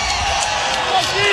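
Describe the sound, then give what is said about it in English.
A loud crowd cheers at a college baseball game involving Nebraska, a continuous roaring wash of voices that holds steady through the short moment. “Loudest cheer of the night. Yep. It gives you an idea of what 13 means to this crowd”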